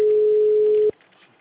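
A telephone ringing tone sounds as a call is placed: one steady, single-pitched beep held for nearly a second, then cut off abruptly, leaving faint background noise.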